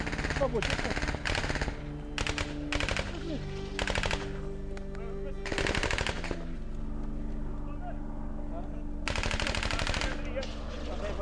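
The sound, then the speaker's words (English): Soldiers in open country let off rapid bursts of automatic gunfire. Many loud, crackling volleys repeat with short gaps between them, over a constant low rumble. “Tango 1, rapid fire! Tango 1, rapid fire, is the call. Rapid fire.”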